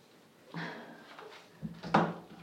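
A cupboard door is opened to let a shut-in pet out, giving a few soft wooden bumps and creaks with a sharper knock near the end. The sounds are quiet and there is no talking.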